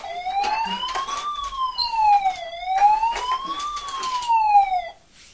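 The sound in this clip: A police car siren wails in slow sweeps, climbing and falling in pitch through two full cycles, loud and steady with no talk, then cuts off near the end.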